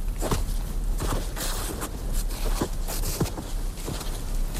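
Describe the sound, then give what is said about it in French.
Footsteps crunch through heavy, wet snow in a snowy forest, a steady series of soft, muffled compressions at an even walking pace over a constant low background rumble, with no talking. “Notre carte postale sonore va donc vous amener dans la forêt enneigée. Neige lourde et humide.”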